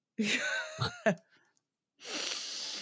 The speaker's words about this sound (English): It was a sniffy breathe in